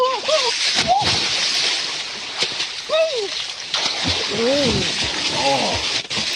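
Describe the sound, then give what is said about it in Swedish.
Water sloshes and splashes continuously as a woman goes in to bathe, a steady gushing wash with a few louder splashes, while people talk over it with cheerful, rising exclamations. “Hon njuter alltid när hon badar. Och snabb var hon, Per.”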